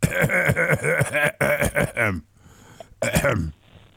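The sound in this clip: A man clearing his throat with a series of rough, voiced rasps, then a shorter final rasp after a brief pause.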